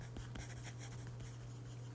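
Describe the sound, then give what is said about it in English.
Pen or pencil writing by hand on paper gives a faint, continuous scratching over a steady low electrical hum, with no talking. “So now I can write down.”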